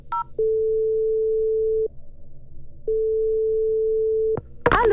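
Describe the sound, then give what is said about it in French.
Ringback tone of an outgoing phone call: two long, steady mid-pitched tones separated by a short pause, followed by a brief noisy click as the line changes. “Elle va rappeler. Pas de panique. Je reste zen et j'appelle Marianne Cambon.”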